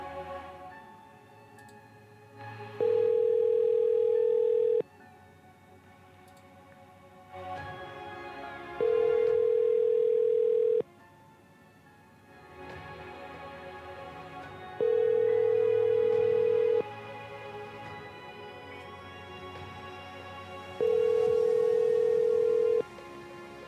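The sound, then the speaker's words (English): Ringback tone of an outgoing telephone call, four steady two-second rings spaced evenly apart over a quiet background. “I'll call back and just ask if everything got resolved.”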